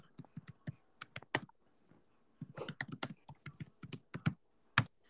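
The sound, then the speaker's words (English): Typing on a computer keyboard: a reply is tapped out in irregular bursts of crisp keystrokes, with short pauses between runs of clicks. “I'm just gonna type no, just doing research for a podcast.”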